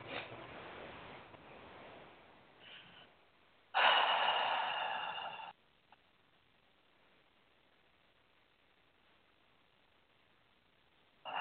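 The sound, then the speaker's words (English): A slow, deep breath: a long, soft inhalation followed by a louder, breathy exhalation that lasts a couple of seconds, then near silence. “take another nice deep breath.”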